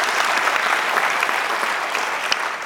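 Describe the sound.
Audience applause at a morning gathering welcomes a preacher's wife as she stands beside him. Dense, steady clapping holds at an even level throughout, with no voices above it.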